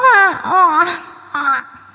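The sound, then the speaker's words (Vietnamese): A child wails and cries hoarsely, giving a loud, strained, wavering bout and then a shorter second cry after a brief pause. “Đứa trẻ lại gào khóc đến khản giọng.”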